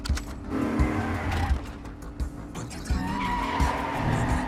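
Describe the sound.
A car drives hard during a movie chase, tyres skidding: a continuous engine roar mixed with squealing tyre tones, moderately loud and noisy throughout with no voices.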